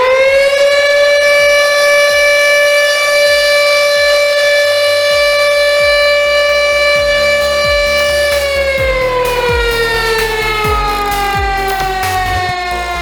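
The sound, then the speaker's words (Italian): A loud factory siren from the Falck steelworks in Sesto San Giovanni, Italy, wails continuously for the whole stretch. It holds a steady pitch for about eight seconds, then slowly slides downward, over a low rumble. “Partiamo dal suono originale della sirena della Falca, che ora non si può più ascoltare.”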